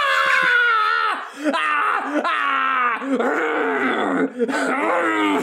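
A person imitates a teacher screaming at a child in class, making several loud, strained, hoarse screams in sustained bursts with wavering pitch and brief breaks between them.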